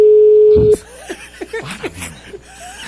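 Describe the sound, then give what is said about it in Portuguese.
A steady telephone dial tone hums at one even pitch for under a second while someone is being called, then cuts off and gives way to laughter and voices. “Tá ligando com esse cara? Não vai atender.”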